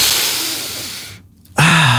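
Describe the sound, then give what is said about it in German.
A deep breath is drawn in through the nose as one long, airy inhale that fades away. A short silence follows, then music starts abruptly. “Bei dreimal ganz tief durch die Nase einatmen. 1, 2, 3.”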